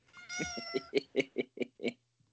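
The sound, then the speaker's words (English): A cat meows: first one longer, drawn-out call, then a quick run of short, clipped meows at a steady pace. All are fairly quiet and are followed by a short stretch of near silence. “That's a cat.”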